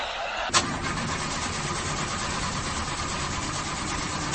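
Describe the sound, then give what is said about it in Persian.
A car engine cranks without starting, with a suspected clutch plate fault. A short click at the start gives way to a steady, droning mechanical churn that holds evenly to the end. “آقا استارت نمیخوره.”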